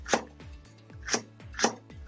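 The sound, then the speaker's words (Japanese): A knife chops half a Japanese long spring onion on the diagonal, with three sharp, crisp strokes spaced irregularly and fainter cutting sounds between them, without talk. “ちょっと長ネギの方を切っていきたいと思うんですけども、長ネギはえ2分の1本を斜め切りですね。”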